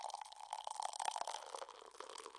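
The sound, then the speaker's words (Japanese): A drink poured from a can into a glass: a faint, continuous liquid gurgle with a steady mid-pitched tone and light splashing texture running throughout. “続いて自分のグラスに注ごうとすると、はいはい、私が注いであげると、娘は私の手から缶を横取りした。”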